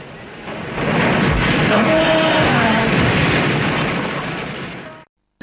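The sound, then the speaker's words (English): Fuel pumps explode in a huge fireball, a loud, dense rushing blast that swells within the first second and holds a steady roar for about four seconds before cutting off abruptly. “The fuel pumps explode in a huge fireball, throwing Diggs and Sorensen”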